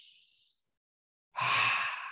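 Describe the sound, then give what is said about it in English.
A deep breath: a faint airy hiss at first, then, after a silent pause, a loud rushing breath of air lasting about a second, alone without talk. “I want you to take a deep breath. Everybody take a deep breath.”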